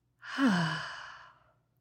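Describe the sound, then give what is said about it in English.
A single soft, breathy exhale through the mouth during a box-breathing exercise for stress relief. The airy sigh swells quickly and then tapers away over about a second, with no voices. “just take a breath in through your nose. And clear it out the mouth.”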